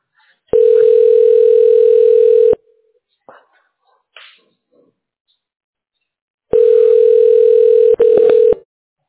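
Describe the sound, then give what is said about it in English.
Telephone ringing tone as a call is connected: a long, steady tone, a pause with a few faint clicks, then another long tone followed closely by a shorter one. “We will now connect you.”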